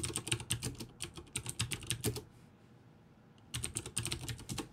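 Rapid typing on a computer keyboard while searching for an article online. Dense bursts of keystrokes run steadily, stop for about a second, then pick up again at the same quick pace.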